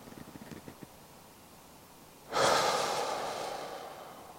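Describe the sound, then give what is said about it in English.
A single long, deep breath, taken while lifting the shoulders. It begins abruptly after a quiet stretch and holds as a loud, airy rush to the end. “just take a few deep breaths in and I pump myself a little bit up that my shoulders go up.”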